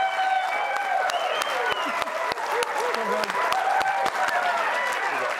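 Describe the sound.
A studio audience applauds and cheers to welcome a college football head coach as a guest. The clapping is dense, loud and steady throughout, with voices calling out over it.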